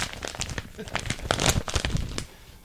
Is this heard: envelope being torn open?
yes

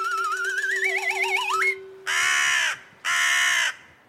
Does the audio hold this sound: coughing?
no

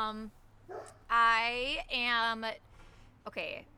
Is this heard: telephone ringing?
no

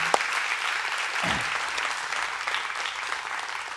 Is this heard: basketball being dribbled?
no

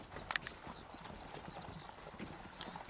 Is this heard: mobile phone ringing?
no

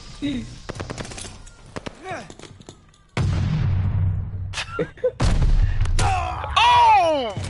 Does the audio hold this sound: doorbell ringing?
no

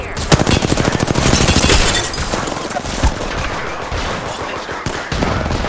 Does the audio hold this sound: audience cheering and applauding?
no

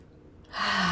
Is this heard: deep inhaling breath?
yes

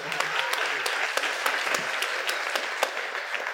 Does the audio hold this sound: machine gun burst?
no

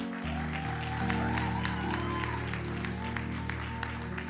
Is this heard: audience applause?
yes

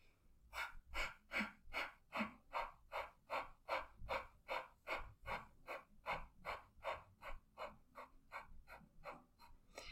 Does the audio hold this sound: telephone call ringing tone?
no

